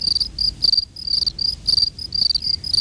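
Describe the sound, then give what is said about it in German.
Crickets chirp in a steady series of shrill, high-pitched trilled bursts separated by brief gaps. The chirping is fairly loud and heard alone over a faint low rumble. “Und wie überwintern die Grillen, die ja auch zu den wechselwarmen Tieren gehören?”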